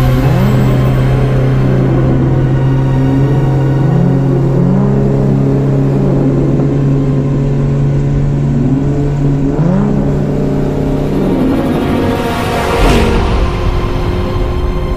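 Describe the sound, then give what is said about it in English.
A futuristic car's engine roars as it barrels out of an alley and speeds away at night, loud and continuous, with several rising revs as it accelerates and a brief whoosh near the end. “The Batmobile barreled out of the alley and zoomed off into the night.”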